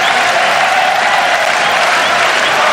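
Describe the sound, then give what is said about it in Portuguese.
A stadium crowd roars in the stands of the Caldeirão in Funchal during a Marítimo home football match against Porto. The dense, unbroken wall of cheering stays loud and steady throughout. “Barulho ensurdecedor nas bancadas do Caldeirão. Panelão a ferver nesta altura.”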